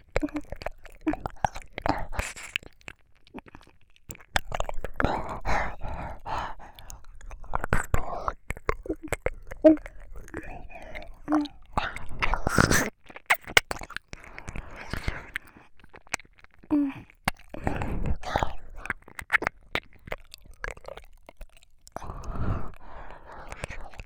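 Mouth sounds of nibbling at an ear in an ASMR roleplay: many soft, wet clicks, smacks and breaths in an irregular stream, mixed with quiet whispering.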